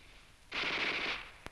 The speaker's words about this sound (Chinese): 老葛，你听啊，那小歪把子声音多脆呀、啊！